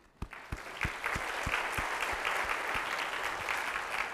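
An audience applauds to welcome a new intern, a recent university graduate. A few distinct claps open it, then dense, steady clapping continues at an even level to the end.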